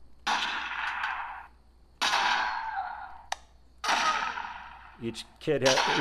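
Toy guns firing at pop-up alien targets raised by pneumatic actuators: a few long, loud hissing bursts alternate with a sharp crack and quick clattering pops near the end.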